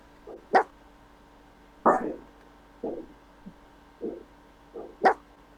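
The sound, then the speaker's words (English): A dog barks in a few short, sharp bursts spread across the moment, some loud and some faint, with brief quiet gaps between them and no other clear sound. “Someone's ready to bark.”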